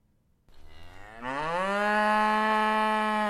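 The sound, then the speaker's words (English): A drawn-out moo from a tip-over cow toy turned upside down: the mechanical bleat starts low, climbs in pitch, then holds a steady, reedy, buzzing tone for about two seconds, growing louder as it settles. “It's one of those toys that you turn over, that you invert, and then the moo cow sound comes out.”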